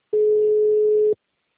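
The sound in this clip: A single steady telephone ringback tone lasting about one second, clean and alone, on a call that goes unanswered.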